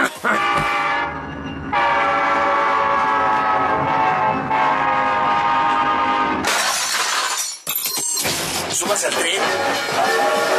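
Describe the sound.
A train with loud rolling rail noise and a long, sustained horn blast, followed by dense clattering and crashing, all loud and continuous.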